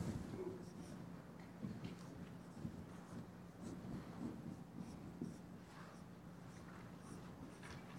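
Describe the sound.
Pen writing on paper, very faint scratching strokes in short, uneven bursts over a low steady hum.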